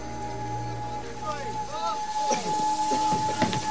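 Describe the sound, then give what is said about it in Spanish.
A steam locomotive pulls away from a station platform with a continuous loud hiss, overlaid by squealing metallic tones that swoop up and down. “Ambos se quedan mirándose mientras la locomotora inicia la marcha.”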